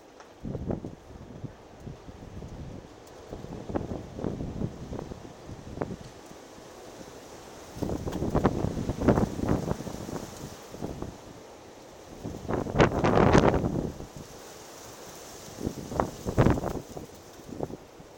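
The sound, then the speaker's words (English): Strong wind blows outdoors and buffets the microphone in many rough, low gusts that swell and fade. The loudest surges come near the middle and the end, and no voices are heard. “That, ladies and gents, is wind. Lots and lots of wind.”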